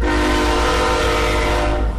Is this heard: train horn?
yes